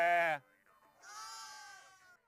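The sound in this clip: Sheep bleating among herders in Mongolia: a short, loud, bright bleat opens, and after a pause a longer, quieter, wavering bleat follows.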